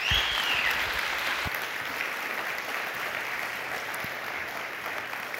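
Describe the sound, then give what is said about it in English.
An audience claps to welcome a speaker to the stage, a dense, steady applause that holds at full strength for the whole stretch and eases only slightly toward the end. “And so would you please just put your hands together and welcome Neil to the stage.”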